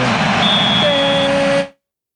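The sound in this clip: A referee's whistle ends the first half of a Copa do Brasil match between Grêmio and Internacional at the arena. A thin, steady tonal blast sits over loud, continuous crowd noise, and everything cuts off abruptly.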